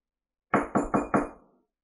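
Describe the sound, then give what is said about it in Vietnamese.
Four firm knocks on a room door in quick, even succession, sharp and fairly loud, heard alone. “Một hồi tiếng gõ cửa vang lên”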